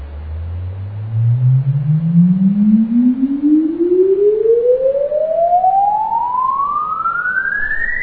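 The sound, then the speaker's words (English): A test sine sweep is played for recording to measure an impulse response. A single smooth tone rises steadily from a very low hum to a high whistle over about eight seconds, loud and constant, with no other sound. “We insert here as the first track the sweep, and we record the second one.”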